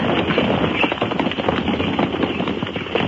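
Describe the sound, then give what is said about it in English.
Horses carrying a troop of mounted Spanish dragoons ride up to a small frontier fort in 1807, heard as a dense, steady clatter of many hoofbeats that carries on without a break. “as the Spaniards ride up to a halt”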